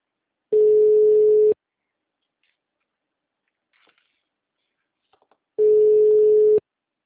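Ringback tone of an outgoing telephone call: two steady one-second tones at a single mid pitch, separated by about four seconds of near silence broken only by a few faint clicks.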